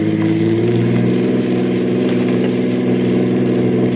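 Car engine roaring steadily during a car chase, as one driver closes in to force another car off the road; a loud, continuous mid-pitched drone with a low rumbling hum that holds even throughout, with no voices.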